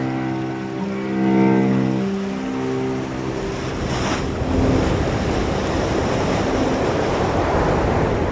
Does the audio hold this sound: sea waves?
yes